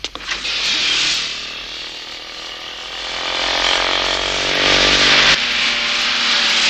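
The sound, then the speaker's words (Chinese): Engines roar as cars chase a motorcycle, a loud, dense, steady rushing drone that swells toward the end with no voices. “汽车和摩托车的距离越来越近了，摩托车突然来了个急转弯。”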